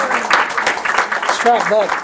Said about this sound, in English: Welcome, Jason, with a hand clap.